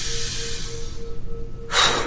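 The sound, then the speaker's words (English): A deep human breath, a long, steady airy rush with a faint low hum beneath, ending in a short, louder burst of breath. “let's do a little bit of full breath. Okay. Now, breathe in. Let it go. Breathe in.”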